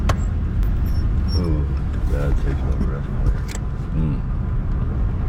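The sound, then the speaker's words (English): A car turns off the main road and drives uphill, giving a steady low road-and-engine rumble that runs beneath continuous speech. “We turn off the main road and drive up a little bit.”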